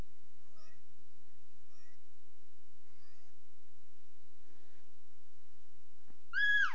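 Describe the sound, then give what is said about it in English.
A female cat meows: a few faint, short mews spaced apart, then one louder, high, bending meow at the end over quiet background hum; no talking. “Say, kitty. Here she is.”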